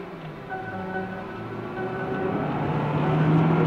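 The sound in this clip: A car engine drones steadily while the car speeds along over the limit, with a tonal hum that grows a little louder over a few seconds and no talking.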